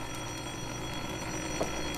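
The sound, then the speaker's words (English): A telephone bell rings in the next room, a faint, rapid trill of repeated strikes heard over a steady background hiss, with no voices. “Well, there's the phone now.”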